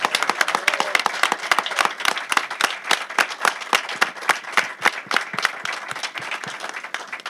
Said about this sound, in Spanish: Fuerte el aplauso para Kike Alcatena.